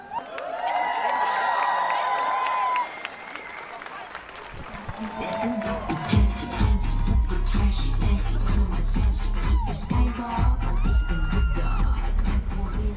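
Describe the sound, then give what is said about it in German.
A crowd gathers on a square before a demonstration parade, with continuous murmuring voices and shuffling. A low rhythmic thumping sets in partway through and continues under the chatter. “Der Platz ist langsam voll und die Menge ist bereit loszugehen. Gleich geht die Parade los.”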